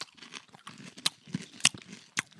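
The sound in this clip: Sweet popcorn being crunched while eaten: a few sharp, brittle crunches stand out above a faint, steady chewing texture, with no talk.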